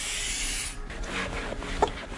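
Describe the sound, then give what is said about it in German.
Rubbing from a worker polishing the window pane of a rental camper van in a workshop: a steady, faint, hissing swish that carries on throughout, with one small knock near the end. “Nebenan in der Werkstatt poliert gerade einer der Mitarbeiter die Fensterscheibe eines Mietkarawans.”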